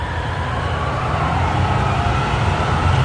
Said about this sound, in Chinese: 这辆长途汽车又开动了